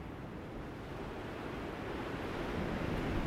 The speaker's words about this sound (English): I'm standing sideways into this wind, but I'm also finding it difficult to stand steadily.